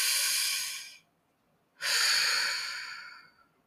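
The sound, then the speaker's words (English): Two slow, airy breaths through the mouth during a guided breathing exercise, a breath in and a breath out separated by a short silence. Both are soft, broad and hissing, and the second breath is longer and fades out gradually. “Now inhale, mouth, exhale, mouth.”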